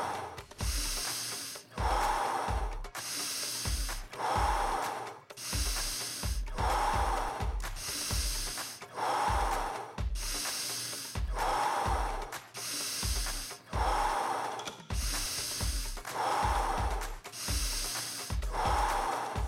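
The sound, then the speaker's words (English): Deep, rhythmic breathwork breathing, with forceful airy inhales and exhales alternating in a steady, even cycle; many breaths are heard, loud and breathy, with no talking. “Final few breaths in, final few breaths back out.”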